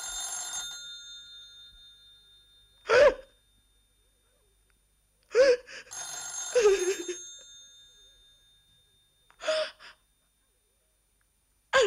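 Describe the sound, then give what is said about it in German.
Telephone bell rings in two long, bright bursts separated by quiet, with soft gasps and sighs between and after the rings. “Mein Gott, schon wieder. Ich lasse es einfach klingeln. Es ist irgendein teuflischer Trick. Ich werde den Hörer nicht mehr aufnehmen. Und wenn es die ganze Nacht weiter klingelt...”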